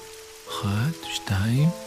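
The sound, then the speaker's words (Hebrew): Steady rain falls as a soft, continuous hiss beneath two people talking. “אני אוהבת להקשיב לגשם. גם אני. הוא מרגיע.”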